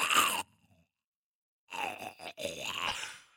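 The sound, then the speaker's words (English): A voice imitates a zombie walker groan from The Walking Dead: a short, harsh, breathy burst, then a pause, then a longer raspy, wavering groan with a brief break partway through, fairly loud and alone. “the main thing I do is the walker noises, like...”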